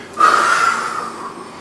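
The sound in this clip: A person imitates the breathing of someone dying with a sudden, noisy, rasping intake of breath. It swells sharply, then fades slowly into a soft airy tail, with no talking.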